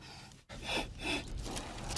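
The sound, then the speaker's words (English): Deep, measured breaths: after a brief silence, a few airy swells rise and fall in slow rhythm over steady background noise, with no talk. “Guys, just breathe. The key to this is just deep, measured breath. Follow me.”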